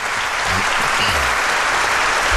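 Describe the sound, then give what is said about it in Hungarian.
Applause for a guest at the end of an interview: a steady, loud wash of clapping that holds evenly for the whole stretch with no clear voices. “egy hatalmas, megilletődött tapsot neki”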